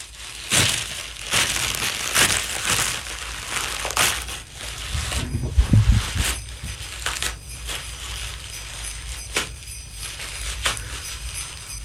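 A Christmas Eve gift wrapped in paper and tape being unwrapped: many bursts of crinkling, crumpling and tearing paper in an uneven rhythm, with a heavier crunching and handling thump near the middle.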